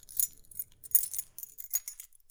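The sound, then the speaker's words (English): Keys jingling in a few short, bright bursts of metallic clinks and rattles, fairly quiet with brief gaps between shakes. “Now, what did you hear? Keys? Right. Keys jingling.”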